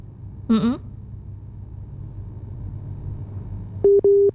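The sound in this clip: Telephone busy tone after a call line drops: two short, steady mid-pitched beeps near the end, the second cut off, following a brief chirp at the start and a low background hum.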